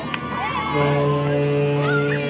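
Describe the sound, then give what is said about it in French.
A ship's foghorn sounds a deep, steady blast. It begins shortly after the start and holds at an even pitch to the end, with voices faintly heard around it. “Tu peux faire la corne de brume? Je te fais la corne de brume. Oui, monsieur. On fait la corne de brume.”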